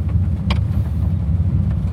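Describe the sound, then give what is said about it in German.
Steady low engine rumble of a T6 van pulling away with four people aboard, a continuous droning hum with one faint brief click near the start; no voices. “Ja, wir fahren einfach mal los und gucken, was es hergibt.”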